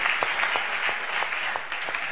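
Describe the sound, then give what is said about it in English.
Audience clapping hands, a steady, dense patter of many claps that continues without a break. “Oh, you can clap those hands.”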